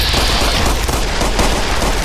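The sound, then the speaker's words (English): Video game gunfire strikes the player as a loud, dense stream of rapid shots, crackling continuously without a pause for the whole two seconds, with no voice over it. “Alright, this guy's hitting me with a lot of bullets.”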